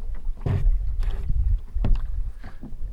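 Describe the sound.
A boat drifts slowly across open water toward an island, with swans nearby. Low, rumbling water and wind noise is broken by a few soft, swelling bursts. No one speaks.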